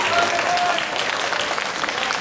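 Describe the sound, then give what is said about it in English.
Audience applause at a live event, called for to honour the evening's host: dense, steady clapping that stays loud and even throughout. “Can we have an applause for him?”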